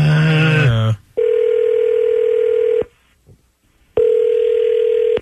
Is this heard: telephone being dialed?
yes